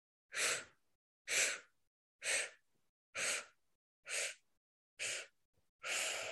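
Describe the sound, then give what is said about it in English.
Seven quick sipping inhales through the mouth, each drawn in like air pulled through a straw as part of a breathing exercise. They are evenly spaced breathy, hissing bursts about a second apart, with no talk. “So it's a 7-part inhale through the mouth. So we're sipping the air in like we're sipping through a straw. So it sounds like this.”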